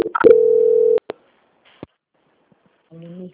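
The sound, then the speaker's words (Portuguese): A telephone line tone sounds while a dropped call is transferred: a steady tone of under a second, a few clicks, then a brief buzzier tone at the end. “a ligação caiu. Eu vou transferir de novo”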